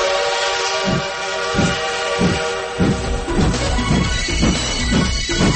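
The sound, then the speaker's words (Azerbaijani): A train departs with a loud, steady rumble under a sustained whistle tone, while rhythmic chugging pulses come closer together as it gathers speed. “Seçki qatarı 101.7 FM stansiyasından yola düşür.”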